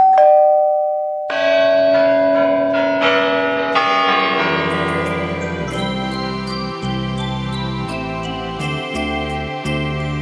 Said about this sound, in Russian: позвоню я в ваш звонок